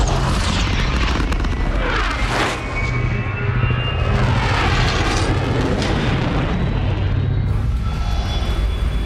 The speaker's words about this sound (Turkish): Karanlık madde motorlarını çalıştır. Tam güç ileri.